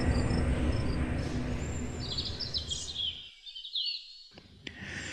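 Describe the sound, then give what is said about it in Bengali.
Morning birdsong: many faint, high chirps and trills over a steady hiss. The hiss drops away partway through, leaving the calls more exposed. “ঘুম ভাঙল সকালের পাখির ডাকে”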